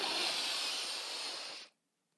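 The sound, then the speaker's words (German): A long, deep breath is drawn in through the nose as a steady, airy hiss. It lasts about one and a half seconds, then stops abruptly into silence. “Also, atme einmal ganz tief durch die Nase ein.”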